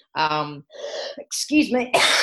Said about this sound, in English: I'm having a bit of a coughing fit here. Can I get some water?